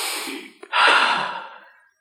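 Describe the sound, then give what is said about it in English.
Deep breathing, in through the nose and out through the mouth: two long, airy breaths separated by a short pause, the second louder and fuller. It is heard alone and fades out at the end. “All right, in through the nose, out through the mouth.”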